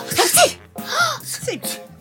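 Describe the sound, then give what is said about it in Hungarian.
A voice imitates repeated sneezing, with three explosive bursts in a row, each a sharp, breathy vocal blast that rises and trails off. “S nagyot tüsszentettek. Ők is.”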